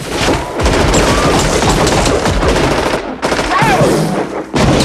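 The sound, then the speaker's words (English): Machine gun fire in a cemetery shootout, with several guns joining in: loud, dense, continuous bursts of rapid shots, broken by two brief pauses before the firing resumes. “Rhino emerges, firing a machine gun. As all the others join in the shooting, Truman takes evasive action.”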